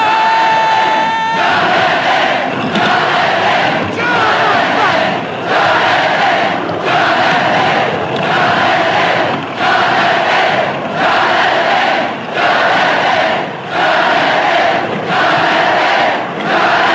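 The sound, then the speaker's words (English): A film arena crowd chants the name Jonathan over and over. Loud, massed voices repeat the chant in a steady rhythmic pulse about every second, with a continuous roar beneath it. “They're chanting Jonathan.”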